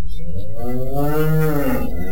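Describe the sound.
A cow lowing in one long, loud moo that lasts about two seconds. The rich, harmonic bellow swells and then eases off, with no other sound around it.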